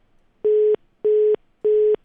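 A telephone busy tone after a dropped call: three identical electronic beeps at one steady pitch, evenly spaced with short silences between, loud and clean with no voices.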